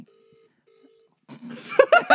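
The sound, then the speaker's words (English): A phone rings with an incoming caller to the show: two long, steady mid-pitched tones separated by a gap, then a voice begins talking. “Someone calling into the show? I think so.”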